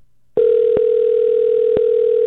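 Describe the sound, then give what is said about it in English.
Ringback tone of an outgoing telephone call: a loud, steady electronic tone that starts abruptly and holds at one constant pitch without a break. “I'm glad you picked up on the very first ring.”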